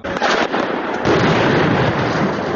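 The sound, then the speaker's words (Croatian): Gunfire shooting on all sides, a loud, dense and continuous crackle of shots with a few sharper bangs standing out at the start and midway. “Na sve strane puca.”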